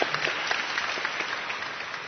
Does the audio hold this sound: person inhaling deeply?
no